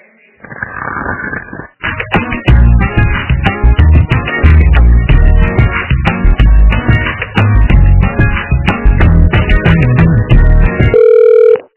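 Telephone line audio while a call is transferred: thin, narrow-band electronic tones in a busy, choppy stream that runs almost without a break and ends on a short steady tone.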